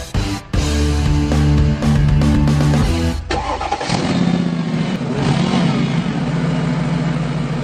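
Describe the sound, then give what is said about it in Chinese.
A car engine starting and revving before setting off during a driving lesson, loud and continuous throughout, its tone shifting partway through from a harmonic hum to a rougher, noisier roar. “准备启动车子，准备上路”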